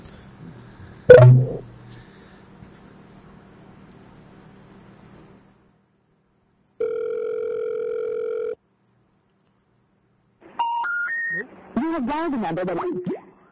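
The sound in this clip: Electronic call tones from a phone call dialled through Skype. A sharp knock comes first, then a steady tone lasting nearly two seconds. After a gap, a short stepped series of tones leads into a warbling jingle.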